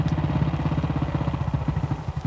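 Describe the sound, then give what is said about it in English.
The engine of the biggest Harley-Davidson motorcycle, a low, throbbing idle with a steady, rapid loping pulse and a mechanical clatter over it, fairly loud and unbroken throughout. “Then I bought the biggest motorcycle made by Harley and took off on a new lifestyle.”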